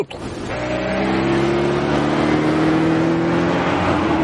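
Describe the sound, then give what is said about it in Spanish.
A car drives along a lonely road, its engine a steady, continuous drone that swells during the first second and then holds even, with no voices. “el hombre sigue conduciendo por la solitaria carretera”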